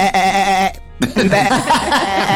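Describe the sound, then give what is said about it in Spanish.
A human voice imitates a sheep's bleat: one loud, wavering, strongly harmonic call. A short silence follows, then a stretch of busier, rougher vocal noise. “Una oveja, una oveja.”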